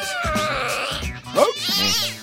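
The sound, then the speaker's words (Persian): A cat meows repeatedly in loud, high, wavering cries, with a few drawn-out calls that bend up and down in pitch, heard alone without talk. “خب معلومه که این گربه عقب مونده است.”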